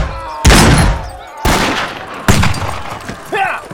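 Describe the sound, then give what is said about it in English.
A volley of rifle and pistol gunfire: four loud, sharp blasts at uneven intervals, each with a decaying rumble. “Leaping from the saddle, he fired into the tangled knot of addled men, emptying his rifles and pistols.”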